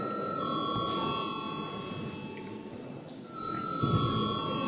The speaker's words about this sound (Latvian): Paldies, lūdzu zvanam.